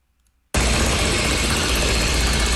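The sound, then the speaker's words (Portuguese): A concrete mixer runs during emergency night street works by a power company in Copacabana at 3 a.m. After a brief near-silence, a loud, steady engine drone with deep rumble cuts in abruptly and holds at an even level. “Betoneira.”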